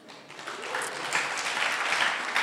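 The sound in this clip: An audience bursts into applause for a volunteer during a coin trick. The clapping swells over the first second, then stays dense and steady.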